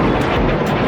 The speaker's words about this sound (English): Rockets and drones fired at Israel from Lebanon by the armed group Hezbollah.